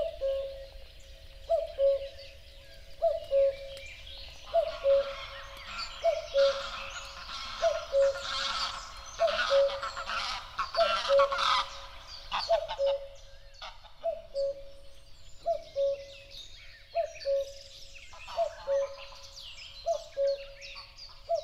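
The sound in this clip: Birdsong in a nature recording: a low, soft cooing call repeats at a steady, even rhythm many times, while fainter, higher chirps and trills from other birds come and go above it.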